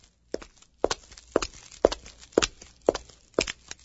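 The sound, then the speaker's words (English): A woman's footsteps walk at a steady, even pace, about eight firm steps roughly half a second apart, heard alone. “This is a story. A woman is walking.”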